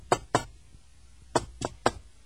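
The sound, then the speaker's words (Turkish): Knocking on a door: two sharp raps, a pause, then three more. The knocks are fairly faint, with quiet between them. “çalacaksan çal şu kapıyı da ne olacaksa olsun artık canım. Tamam hanım, tamam, çalıyorum.”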